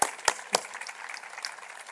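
Applause from an audience at a bilingual community talent gathering, starting with a few sharp claps and then settling into a faint, steady patter.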